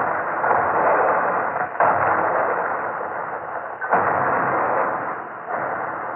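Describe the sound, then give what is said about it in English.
Big guns firing in an artillery bombardment before a beach landing make a continuous, dense roar of noise, with about three sudden blasts renewing it. “How long they shoot with big guns before Japanese come? We can't see out there. They may be on their way in now. The bombardment went on.”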